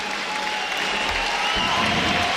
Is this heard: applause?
yes